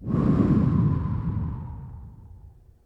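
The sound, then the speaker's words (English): A long breathy exhale imitates the wind, a soft rushing whoosh that starts strongly and slowly fades away over about three seconds. “you can blow the air out of your mouth like the sound of the wind. Let's give it a try. Breathe in through your nose. And breathe out like the wind.”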